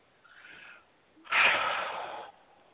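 A deep breath taken during a guided affirmation session: a faint breathy sound, then one loud, airy rush lasting about a second, with no talking.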